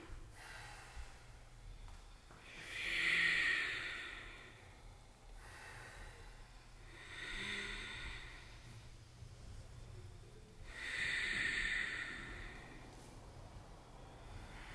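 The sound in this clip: Ujjayi breathing during yoga practice, three long, slow breaths with a soft oceanic hiss, each swelling and fading over about a second and a half, spaced roughly four seconds apart.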